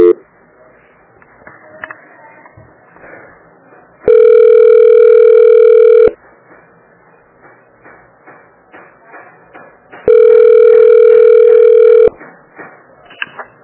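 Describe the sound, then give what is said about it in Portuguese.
Telephone ringback tone plays while a call is being transferred: two long, steady, mid-pitched tones, each about two seconds, separated by a stretch of faint clicks and shuffling. “Só um minutinho que eu vou te passar pro responsável. Tá. Transferência.”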